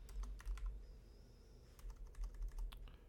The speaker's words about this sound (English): I'm gonna type in the text one. I want you to put in there.